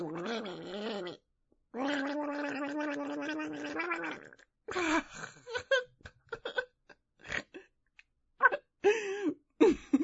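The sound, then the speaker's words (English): A person gargles liquid in the mouth in throaty, bubbling bursts: a long wavering gurgle, a second sustained one, then a string of short, choppy gurgles and splutters separated by brief pauses. “Me gargling when you come in my mouth.”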